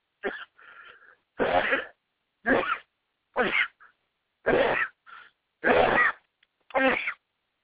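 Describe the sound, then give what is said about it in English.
Sneeze-like bursts from a person, a rapid series of several sharp, explosive blasts spaced at fairly even intervals, with fainter breathy sounds between the first few. “told y'all I was going to sneeze soon, and y'all didn't listen to it. So there you go.”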